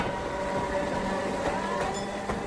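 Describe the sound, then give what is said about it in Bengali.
A train runs on its rails, gathering speed after leaving a shunting yard. It gives a steady, loud rumble with a thin metallic whine and a few sharp clicks, and no voices. “Train ছাড়ল, রেলের গুমটি, shunting yard ইত্যাদি ছাড়াবার পর গতি বাড়িয়ে train জোরে ছুটতে শুরু করল।”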